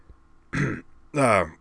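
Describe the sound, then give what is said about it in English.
A man clears his throat, performed by a voice: two short, voiced, rasping bursts separated by a brief pause, the second longer and fuller, moderately quiet and alone. “Carroll stared at her for a moment in utter astonishment. Then he cleared his throat and said,”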